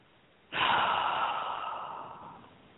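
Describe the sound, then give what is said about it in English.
A single deep, slow breath during a guided breathing exercise: a soft breathy rush starts abruptly and trails off gradually into a long, fading exhale, with no talking. “just take that deep breath and breathe out.”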